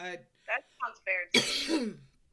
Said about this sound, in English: My God, I can't stop coughing.